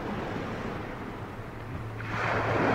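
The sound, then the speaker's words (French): Sea waves wash onto a shore in a steady, hissing rush of surf that swells louder near the end, with no voices present. “Ce bruit qu'on entend, c'est la mer. Je dis que ce bruit qu'on entend, c'est la mer. Nous sommes assis sur la grève.”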